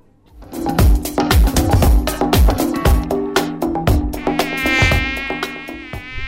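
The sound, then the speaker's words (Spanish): Buzzing of the mosquito that transmits dengue, a thin, high whine that grows stronger in the second half, layered over a run of sharp, loud knocking hits. “El mosquito que transmite el dengue vive en el agua clara, que parece limpia”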